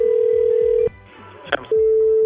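A telephone ringback tone sounds while calling a sports footwear and apparel store. A steady low tone plays, pauses briefly with faint background sound and a short click, then resumes.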